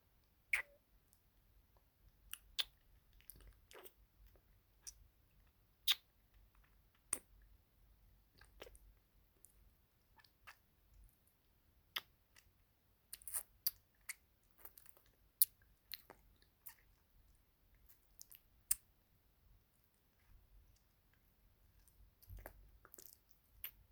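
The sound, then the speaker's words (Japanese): Faint, wet mouth licking as someone licks salt from another person's face, heard as sparse soft clicks and smacks over a low hum, with no talk. “失礼します。舐めさせていただきますね。”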